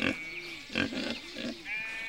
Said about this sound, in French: Il y a des cochons? Oui, il y a 12 cochons.